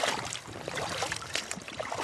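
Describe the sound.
Swift, cold river water rushes and splashes as a research biologist wades in: a dense, continuous wash with small splashes scattered throughout and no pauses.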